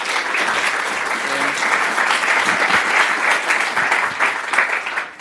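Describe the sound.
Audience applause welcoming a speaker to an after-lunch session: a dense, steady clapping of many hands that stays loud and even for about five seconds.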